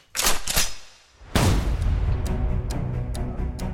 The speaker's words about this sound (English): shot was fired. Shots were fired.